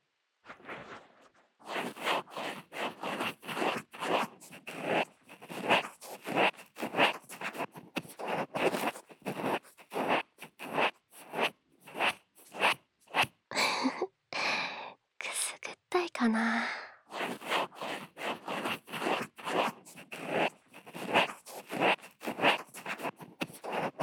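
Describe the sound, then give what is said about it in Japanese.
Scratching on the outer side of a surface, in many short rhythmic strokes, with a brief stretch of softer rustling midway and soft whispering at times. “もう一回、外側。今度は押すんじゃなくて、カリカリってしてくからね。”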